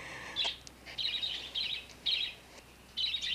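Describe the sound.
A pet bird chirps in several short bursts of high, bright, rapid tweets separated by brief pauses, fairly faint and without any talking.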